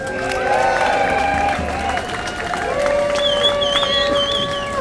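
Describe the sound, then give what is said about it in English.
Crowd applause and cheering welcoming an activist speaker at an event, a continuous wash of clapping with held whistle-like tones over it. “Let's give a warm, hearty welcome to Cindy Sheehan.”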